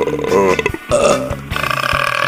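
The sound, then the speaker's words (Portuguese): A long, loud, gurgling burp rolls out in a few voiced pulses, low and rough in tone, over a steady faint background. “Desculpa aí. Também chamado de eructação, o arroto é causado pelo ato de engolir ar, aerofagia.”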